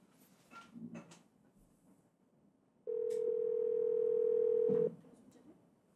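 A telephone ringback tone while placing a call: one steady, single-pitched tone lasting about two seconds, set among faint handling noises and soft clicks before and after.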